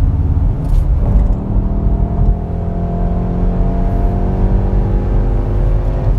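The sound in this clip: A Porsche sports car accelerates hard in race mode. Its engine gives a loud, continuous throaty growl whose pitch climbs steadily as the revs build throughout.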